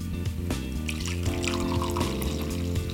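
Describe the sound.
Brewed coffee, filtered from its grounds, is poured out in a steady, gentle trickle of liquid that runs on without a break. The splashing stays soft and continuous the whole time, with no talking.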